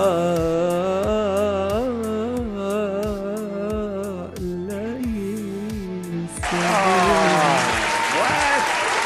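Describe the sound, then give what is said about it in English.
Applause and cheering from an audience breaks out after a song, arriving suddenly as loud, dense clapping over the last few seconds, following sustained singing with a steady rhythmic beat. “A big round of applause.”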